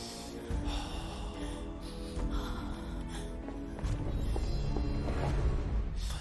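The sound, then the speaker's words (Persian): Person breathing in through the nose after being rescued: snort-like, effortful breaths running continuously over a dense, steady background noise. “منو نگاه کن. به من نگاه کن و مثل من از تو بینیت نفس بکش.”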